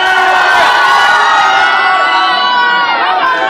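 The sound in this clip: A concert crowd in Paris cheers loudly and continuously, with whoops and shouting voices blending into a dense, steady roar that holds its level for the whole stretch.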